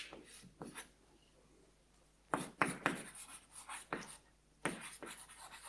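Quiet writing strokes as a logic tableau is drawn out. Short, scratchy bursts come in small clusters separated by pauses of near silence.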